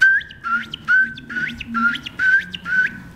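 A ringed plover calls on a gravel riverbank with a run of about seven clear, fluty whistles. Each whistle has an upward inflection, and they repeat in a steady rhythm.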